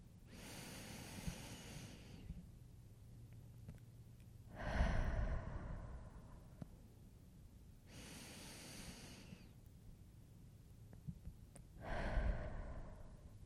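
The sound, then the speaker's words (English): Slow, deep breathing in a calm stress-relief exercise, with four soft, airy breaths forming two long in-and-out cycles, quiet and unhurried with long still gaps between them. “let's just breathe for a few seconds. Let's just take some deep breaths, because I know we need it.”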